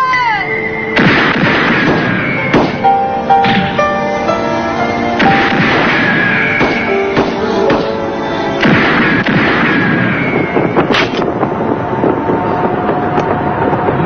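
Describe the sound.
Gunshots from a six-shot gun in an animated action scene: a few sharp, loud cracks spaced several seconds apart over a dense, sustained tonal backdrop.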